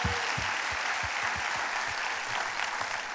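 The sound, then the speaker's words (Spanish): Applause from a church audience during a bilingual praise service: steady, dense clapping fills the whole clip, with scattered low thumps under the continuous hiss of many hands. “Un aplauso a Dios.”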